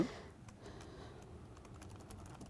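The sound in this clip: Faint typing on a computer keyboard while an item is entered into an app during debugging: many light, irregular key clicks run steadily throughout, with no voices.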